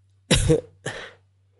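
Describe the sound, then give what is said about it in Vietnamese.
A soft cough in two short bursts, the first fuller and the second weaker and shorter, heard alone without talk. “Trường Xuân Đế Quân khẽ ho nói”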